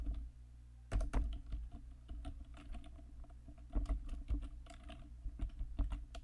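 Typing on a computer keyboard gives irregular runs of quick plastic key clicks, with a few louder taps and short pauses between bursts.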